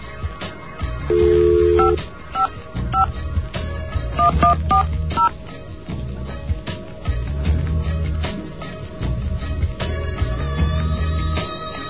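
Touch-tone dialing on a phone line through an office PBX for a local call: one longer tone, then a quick run of several short beeps over a steady low hum.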